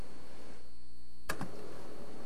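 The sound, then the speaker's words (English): A single crisp click of the enter key on a computer keyboard, with a softer rebound just after, sounds over a steady low background hum. “So we're going to click enter.”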